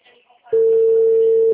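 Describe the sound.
Telephone ringback tone: a single steady, loud electronic tone lasting about a second, preceded by faint brief talk.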